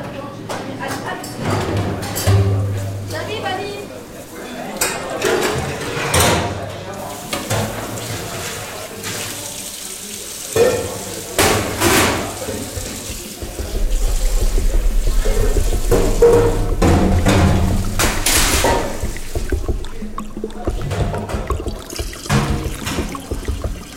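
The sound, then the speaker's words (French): Tap water runs and splashes at a kitchen sink as dishes are washed up during a cooking-school class, a continuous watery rush that grows louder and fuller in the second half. “On commence la plonge parce qu'on a beaucoup, beaucoup salié. Donc moi, comme j'ai déjà fini faire de mon tarte, j'attaque ici avant que les autres ils vont finir”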